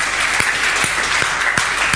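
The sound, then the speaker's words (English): Loud, continuous applause from a church gathering honouring the children's work, a dense wash of clapping with a few sharper, more distinct claps standing out. “So let's give a round of applause firstly for the work of the children, for Nikki.”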